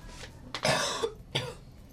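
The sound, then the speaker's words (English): A few harsh, breathy coughs burst out one after another with short gaps between them, with no talking alongside. “Except for my coughing.”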